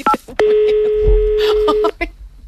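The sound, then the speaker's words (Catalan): Keypad tones of a telephone number being dialed: a short tone, then a long, loud, steady tone lasting about a second and a half, followed by a few more brief tones. “Deixa'm fer una trucada ràpida no, per confirmar més convidats.”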